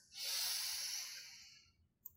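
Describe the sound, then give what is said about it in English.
Deep inhale through the nose during a relaxation breathing exercise: one long, smooth, airy rush that swells quickly and then slowly fades, followed by a short pause and a faint click. “nose to fill up the lungs and exhale through the mouth, sighing out any remaining tension and fatigue. Go ahead and exhale completely to let out any stale air. In through the nose,”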